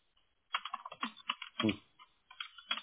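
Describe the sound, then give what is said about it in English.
Typing on a computer keyboard: a short, fairly faint flurry of quick keystrokes, with brief gaps between clusters of clicks and no voice. “Well, I cannot type today.”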